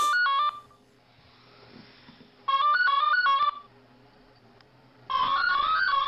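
A mobile phone ringtone signals an incoming call: three bursts of a bright electronic beeping melody, each followed by a pause that is nearly quiet. No one speaks.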